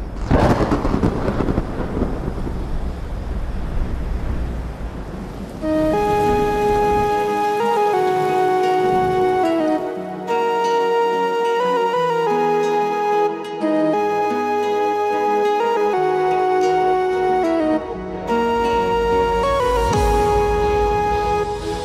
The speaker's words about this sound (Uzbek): Havoni qarang. Jinnimisiz? Yomg'ir yog'u? Mayli, yomg'ir yog'ib qolishi mumkin-ku.